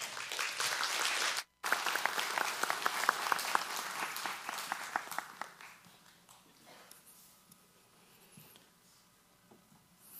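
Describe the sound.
A church audience applauds a guest speaker: dense, even clapping holds steady for about five seconds, then thins out and fades to scattered, quiet claps.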